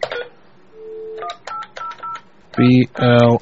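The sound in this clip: A touch-tone telephone dials a number: a steady tone is followed by a rapid series of short dialing beeps. Two longer, louder electronic tones come at the end.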